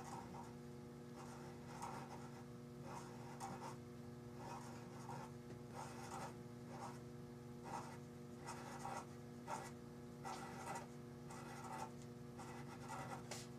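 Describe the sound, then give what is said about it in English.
Quiet, scratchy drawing strokes on paper as spirals are drawn from the outside in. Many short scrapes follow in a steady, rhythmic run over a faint, constant hum, with no voices. “I prefer to draw them from the outside in. I find it easiest to fit them together, drawing them from the outside in.”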